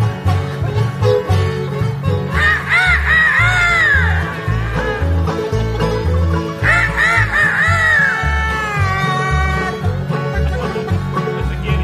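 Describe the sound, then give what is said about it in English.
Squawking, honking fowl cries play as a story sound effect for chickens in the sky. Two long bursts of clucking calls ride over a steady, beat-driven musical backing. “It was a sight he dreaded. Chickens in the sky.”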